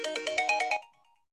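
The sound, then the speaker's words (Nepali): A mobile phone ringtone plays, a quick run of bright, warbling electronic tone pulses at a fairly quiet level, then cuts off after under a second and leaves a faint tone fading away. “एकैछिन है, उसको phone आयो मलाई थाहा भएन।”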